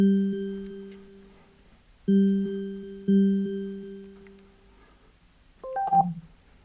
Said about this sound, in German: Anruf wird gestartet.